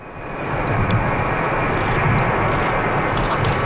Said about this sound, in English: That's the sound of the plane carrying four Canadians from the Canary Islands landing at the airport in Bagotville.